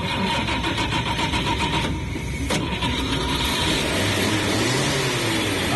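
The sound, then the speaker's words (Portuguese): A Chevrolet Chevette's engine starts with a loud, rough mechanical churn that turns into a steady running drone, with a sharp click partway through. “E nos resta agora ligar o chevetinho.”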